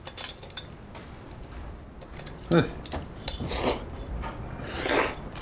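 Utensils clink and scrape against a bowl as someone tastes home-cooked pork stew with glass noodles, faint and irregular, with a sharper knock near the middle and light rubbing scrapes around it.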